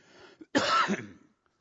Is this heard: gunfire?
no